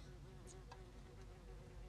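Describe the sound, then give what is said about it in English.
An insect buzzes around someone's face outdoors as evening comes on, a faint, continuous, low drone that wavers slightly and goes on without a break. “No, you're not a bee. I'll swat at you. I don't know what you are, but you're all up in my face. Yeah, it's getting a little late now. We're getting bugs.”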